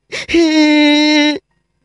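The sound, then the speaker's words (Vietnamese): A child cries out in one sustained, loud wail held at a steady pitch for about a second, preceded by a brief catch of breath, then ending abruptly in silence. “Tiếng khóc của Trình Tiên Duệ non nức làm cho Trình Vĩnh Hoàng khôi phục lại một chút lý trí.”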